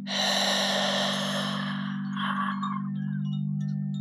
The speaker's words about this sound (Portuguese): Inspire mais uma vez. 3, 2, 1. E expirando.